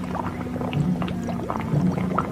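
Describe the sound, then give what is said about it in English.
Water made to bubble as a foley effect for a bubbling liquid, with many small irregular pops and gurgles over a low steady hum. “As I make the water bubble, it's indistinguishable from the sound of Remy's soup, and this is exactly the method commonly used in Hollywood to create any bubbling liquid, from a witch's cauldron”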